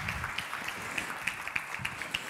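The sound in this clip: Light applause rises from the audience at a Christian gathering as a guest speaker is welcomed. The clapping is fairly faint and steady, with small sharp claps standing out above the soft patter.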